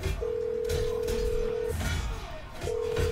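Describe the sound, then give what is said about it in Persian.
A telephone call being placed gives two steady, even tones separated by a short pause, faint against quiet background noise. “زنگ بزن. فقط به خاطر خودت ها این بار رو زنگ میزنم.”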